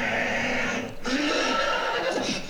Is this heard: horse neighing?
yes

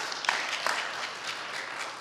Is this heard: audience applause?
yes

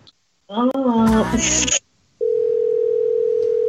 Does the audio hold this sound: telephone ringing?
yes

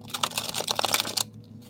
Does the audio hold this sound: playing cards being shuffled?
yes

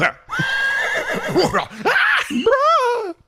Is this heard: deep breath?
no

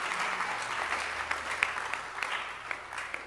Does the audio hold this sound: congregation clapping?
yes

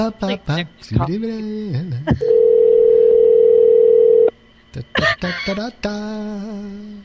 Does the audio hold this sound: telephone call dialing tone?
yes

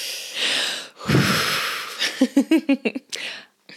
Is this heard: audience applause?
no

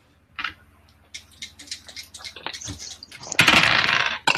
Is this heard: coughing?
no

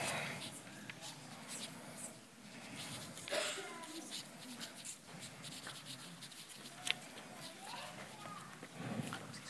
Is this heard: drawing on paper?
yes

